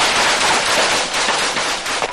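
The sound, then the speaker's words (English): Dense, unbroken rapid gunfire: machine guns of rebels firing with soldiers shooting back in a close-range clash. Loud, crackling bursts overlap without pause for the whole stretch. “Rebels fire machine guns, the soldiers fire back, men fall.”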